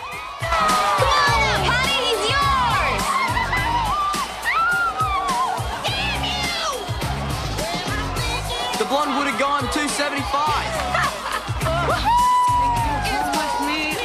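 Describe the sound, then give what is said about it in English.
A winning bidder at a bar auction screams with delight amid a cheering crowd, with loud high-pitched shrieks, whoops and shouts that run continuously and densely from start to end. “The winning bidder screams with delight.”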